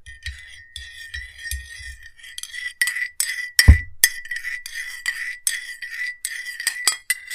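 A spoon stirs coffee in a cup, clinking against the sides in many rapid, bright ticks, with one heavier knock partway through.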